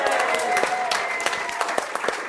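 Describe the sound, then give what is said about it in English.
An audience applauds guests at the close of a recorded show with thick, continuous clapping. Sharp individual claps poke through the steady roar, growing more distinct toward the end. “So, guys, round of applause for Shalley, Quayle, the caterer,”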